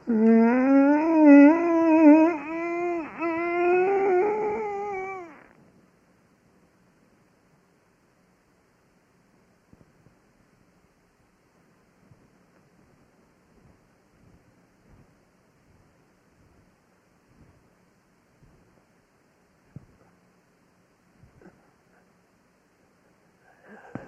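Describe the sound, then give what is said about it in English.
A voice imitating the strained cry of a person in a generalized tonic-clonic seizure: a wavering, groaning vocal tone lasting about five seconds, followed by near silence broken only by faint small clicks. “and that's what a generalized tonic-clonic seizure might look like.”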